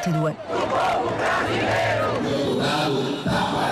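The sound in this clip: Crowd noise from a huge street march of about 150,000 people in São Paulo, a dense, loud, unbroken mass of chanting and shouting voices.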